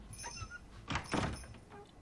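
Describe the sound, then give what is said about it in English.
A bedroom door is closed with a soft swishing sweep and then a muffled thud as it shuts. The sound is fairly quiet, with no talking. “He watches as his parents turn out Sarah's light and close her door.”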